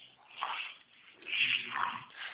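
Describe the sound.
Dogs whimpering and whining, with a few thin, plaintive cries in two main bursts of rising and falling loudness over a muffled, phone-like background.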